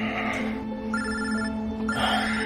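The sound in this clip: A phone rings on a nightstand beside a bed, giving electronic trilling bursts over a steady low hum, with a short gap between rings.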